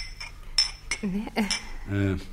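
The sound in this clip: Cups and spoons clink as tea is served, with a few sharp chinks of china and metal spaced out over a faint background. A brief murmur of voice sits between the clinks.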